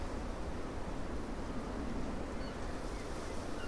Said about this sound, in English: but it's picked up today and it's blowing a gale.